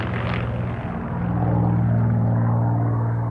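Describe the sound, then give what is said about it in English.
A propeller airplane's engine drones as a silver plane rolls, dives and straightens in the sky. The tone stays steady, loud and continuous throughout. “watching every move as the plane dips and soars.”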